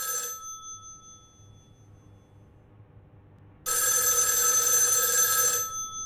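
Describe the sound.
A telephone rings in a newspaper editorial office: two bright, high electric bell rings, a short one first and then a longer burst lasting about two seconds, with a quiet gap between and no talk.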